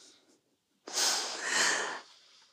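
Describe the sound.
A deep, breathy inhale taken during a yoga exercise, one airy rush of breath lasting about a second, fairly loud against near silence.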